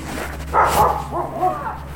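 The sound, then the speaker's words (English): A dog at a house barks at an arriving visitor with a few short, mid-pitched barks and yips in quick succession. “He's barking at me, sorry.”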